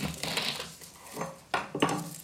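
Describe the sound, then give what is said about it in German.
A knife cutting an unpeeled whole garlic bulb across the middle into two slices, quiet and faint, with a few short crunching cuts and knocks against the board. “Knoblauchräder. Die Schale dran lassen. Einfach dort die Mitte durch, so dass ihr zwei Scheiben habt.”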